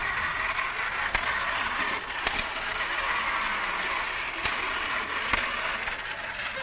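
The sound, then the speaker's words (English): A noisy battery-powered toy whirs as something spins inside it, a steady mechanical buzz broken by a few sharp clicks. “And I know this thing spinning inside does something, but I don't know what. But it doesn't matter because it's cool. And see, as long as it's cool, that's what counts. And they're noisy.”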